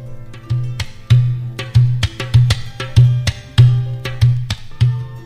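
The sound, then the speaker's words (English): A dohola, the bass tabla, played in a repeating rhythmic pattern. Deep, ringing low strokes with a slight pitch bend alternate with crisp, higher finger slaps, all loud and clear with no other instruments. “Then I used the dohola, which is the bass tabla. This is what it sounds like.”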